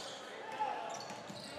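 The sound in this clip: Basketball dribbling on the court during a boys' high school game, the ball bouncing a few times under a commentator's steady voice.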